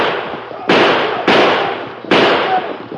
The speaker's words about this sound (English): Near the entrance to the cave, they were met with gunfire.